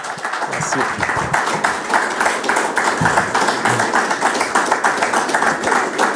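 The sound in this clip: Journalists applaud a Swiss tennis player, a former champion of the tournament. Dense clapping from many hands holds at a fairly loud, even level throughout.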